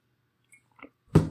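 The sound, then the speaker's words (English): Someone chews popcorn with smacking mouth sounds: a few faint wet clicks and smacks, then one louder, fuller crunch that trails off. “This is why we have popcorn for this podcast. Okay, if you don't like the ASMR smacking, I don't either.”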